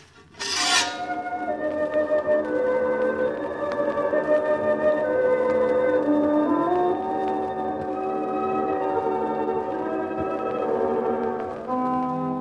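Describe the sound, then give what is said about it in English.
Trowel scraping over wet cement in a cellar: a continuous rasping, grinding scrape with a droning, faintly tonal edge, steady and fairly loud for about eleven seconds after a sharp start. “he would have recognized that sound to be the scraping of a trowel over wet cement as Albert laid his second bride to rest.”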